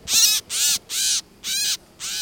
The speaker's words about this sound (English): It's slate gray, a little smaller than a pigeon, with a sweeping, graceful tail. What is it? So this is a gray catbird